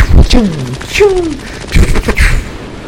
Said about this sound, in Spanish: Y comenzaron a disparar.